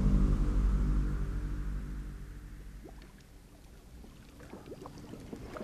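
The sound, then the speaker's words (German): A small boat's motor drones loudly with a steady pulse and then fades as the boat reaches an island, followed by soft water splashes and lapping sounds. “als ein kleines Boot die Insel erreichte.”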